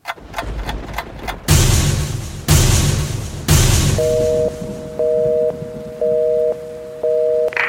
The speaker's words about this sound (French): Frappons les trois coups et levons le rideau.